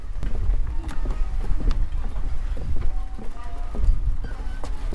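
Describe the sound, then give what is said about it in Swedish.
Footsteps walking along a wooden boat jetty at a boat club: a steady run of dull, hollow thumps over constant low background rumble. “Ja, här går jag på bryggan”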